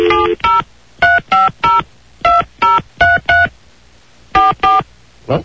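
Telephone keypad dialing tones beep in a series of short, even touch-tone bursts grouped in quick clusters with brief pauses between, loud and clean against near silence, with no ringing evident.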